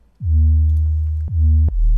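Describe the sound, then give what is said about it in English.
A simple synth bass made from a single sine-wave operator with a pitch envelope plays three deep, loud notes. Each note opens with a quick downward pitch swoop and then holds steady; the last note sits lower. “This is like the main first bass. It's very simple. This is an operator, sine wave, and a little bit of pitch enveloping, and I think that's really it.”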